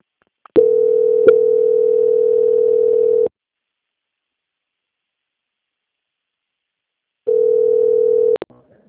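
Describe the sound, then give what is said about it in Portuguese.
A steady telephone dial tone plays as a call is transferred. A sharp click opens a loud, continuous tone of about three seconds, followed by silence, then a shorter return of the same tone ending in clicks. “desligue a ligação, que eu vou transferir a senhora agora para o setor de qualidade, que vai dar andamento na sua contratação. Certo. Transferência.”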